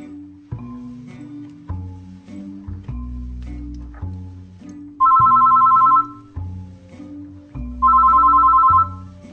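A telephone rings twice, each time a short, bright, trilling burst, over low, tonal background music with steady notes.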